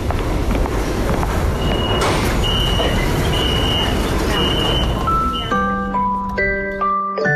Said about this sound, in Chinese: 你看地铁来了，咱们一起排队上车喽。